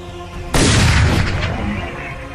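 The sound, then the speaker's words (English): A sharp gunshot sound effect for an attack in a tabletop role-playing game lands as a single loud, heavy blast after a short lead-in, then trails off in a long rumbling decay. “41 points of fire damage to you as another sharp gunshot strikes you.”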